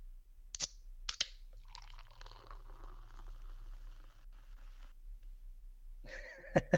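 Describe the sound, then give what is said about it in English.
A dry, lavender-flavored botanical sparkling drink is sipped for ASMR: two sharp clicks come first, then a few seconds of soft, crackling fizz, then a quick cluster of louder clicks at the end. “So we are drinking today a dry botanical bubbly, and this one is lavender flavor. So decided to do a little ASMR.”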